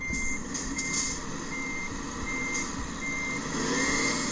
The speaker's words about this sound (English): I'll just go chase cam and reverse up.